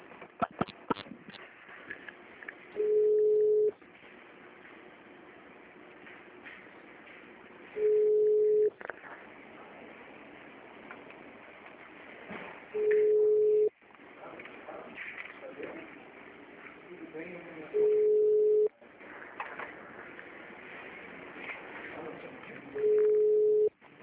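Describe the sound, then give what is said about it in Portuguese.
An automated phone system plays a steady electronic beep five times at regular intervals, each tone clear and even in pitch, with softer background sound between the beeps. “Atendimento digital. Após o sinal, digite o ramal desejado. 3, não, 4.”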